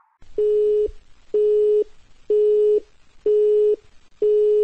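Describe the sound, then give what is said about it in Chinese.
A telephone busy tone sounds after a call disconnects: five evenly spaced, steady mid-pitched beeps, loud and alone. “要可能因为信号问题挂断了啊。”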